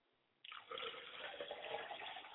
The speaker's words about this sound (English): May the water hit the ground, and may it take up root, and may it spring up and grow.